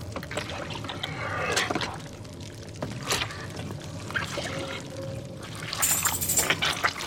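Water splashing and trickling as handmade paper sheets are scooped one after another from a vat of pulp with a mould, a continuous wet pouring and dripping with a few louder surges.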